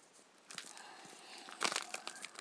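Crinkling and rustling of a sheet of paper, perforated along its top and bottom edges where it was torn from a strip, handled in a few soft bursts that grow louder and denser toward the end.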